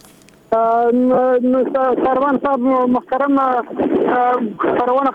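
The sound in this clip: A radio turned up loud in a room, a single voice talking in a steady stream for several seconds, brash and harsh.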